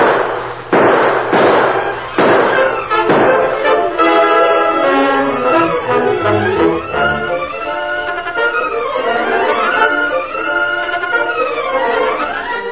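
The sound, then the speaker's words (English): Gunshots in an old Western gunfight: a few sharp cracks in the opening seconds, then a long stretch of whining, wavering tones that swoop up and down. “Drop those guns or we'll shoot. They're not doing it, Fred. Then start shooting.”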